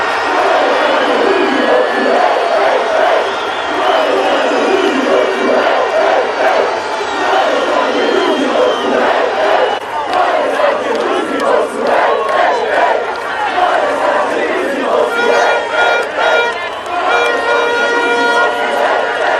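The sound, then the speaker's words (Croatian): Football fans at a public viewing on Freedom Square in Tuzla singing and cheering: loud, continuous massed voices chanting and shouting with a pulsing rhythm that keeps going throughout. “Na Trgu slobode tražilo se mjesto više, orila se pjesma, vijorile su se zastave, a među navijačima mogli su se vidjeti i oni kojima su suze radosnice govorile više od riječi o značaju ovog uspjeha.”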